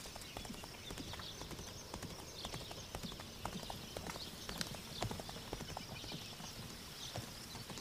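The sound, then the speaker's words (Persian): Horse hooves clip-clop as a rider arrives on horseback, many even, regular hoof strikes at a steady walking rhythm, fairly quiet and continuous throughout. “سیاوش سوار بر اسب میرسه”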